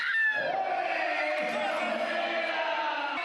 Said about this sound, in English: As soon as the game begins, the stadium goes wild.